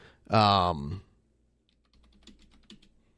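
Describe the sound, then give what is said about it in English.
Someone types on a computer keyboard, producing soft, irregular clicks in the second half, after a brief loud voiced sound near the start. “So, yes, I'm going to type that down so I don't forget it.”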